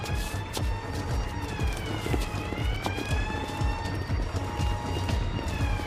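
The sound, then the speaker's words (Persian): An ambulance siren wails in a steady, wavering tone through dense, rhythmic low thudding that runs the whole time. “متوقفش کن اون آمبولانس رو متوقف کن”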